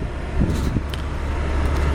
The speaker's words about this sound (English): So I'm driving.